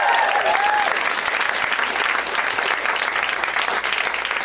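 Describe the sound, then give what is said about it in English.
Audience applause at a live show, steady and fairly loud, continuous clapping from start to finish with no talk over it. “Let's hear it for Sarah.”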